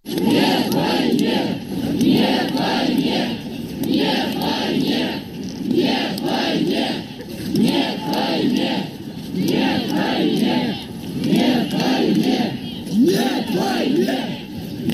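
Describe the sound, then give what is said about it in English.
Russians protesting the war chant 'no to war' in unison, a loud, dense crowd voicing the slogan in a steady repeating rhythm throughout. “That is the sound of Russians protesting the war in Russia, literally saying no to war.”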